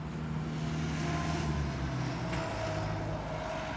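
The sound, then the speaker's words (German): Deep engine rumble of lorries driving in and out of an industrial estate served by post and parcel delivery, a continuous low drone with a brief air-brake hiss midway, fairly faint. “Rund um die Uhr fahren die Lkw rein, raus, bringen Ware, holen Ware.”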